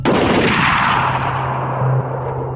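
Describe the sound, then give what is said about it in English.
A firing-squad volley of rifle gunshots at a soldier's execution during the Mexican war era: one sharp, loud blast at the start that trails into a long, fading roar over a steady low hum, with no voices. “Thomas Miller was dishonourably discharged, while Liam McCabe was shot. Ready! Liam! Fire!”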